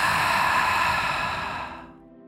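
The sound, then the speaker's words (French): A deep, held breath let out through the mouth: a soft, breathy hiss that stays steady, then fades away over about two seconds. “Retenez le souffle, sentez vos poumons gorgés d'air. Retenez encore quelques instants et expirez par la bouche.”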